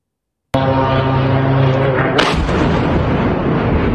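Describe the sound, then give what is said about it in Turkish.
A sudden explosion from a strike on an Iranian ship in the Caspian Sea bursts in loudly and becomes a sustained rumbling roar, with a second sharp blast cutting in partway through. “Bu patlama küresel bir savaşın ilk işareti mi?”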